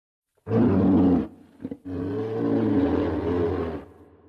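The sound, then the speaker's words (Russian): A monstrous creature roars: a short, loud, rasping burst, then a brief pause and a longer sustained roar with a deep, growling, rumbling texture, heard alone. “Грудная клетка расширилась, втягивая воздух. И он издал рев.”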